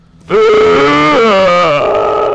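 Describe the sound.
A voice imitates a burp, mocking a young man answering police asking for his ID with a belch. It is one loud, drawn-out, throaty voiced belch lasting about two seconds, with its pitch dipping near the end.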